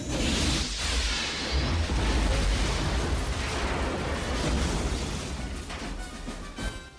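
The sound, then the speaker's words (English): A massive rocket fired from a tracked crawler blasts into a village camp. It lands as a loud, sustained roaring explosion with a deep rumbling low end that slowly fades, and a short burst breaks out near the end. “Another soldier fires a shoulder-mounted rocket launcher. Villagers scramble for cover. Kane flicks switches inside the crawler and fires another massive rocket into the camp.”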